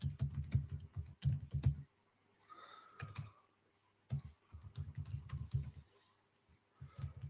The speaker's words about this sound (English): I can't type properly, excuse me.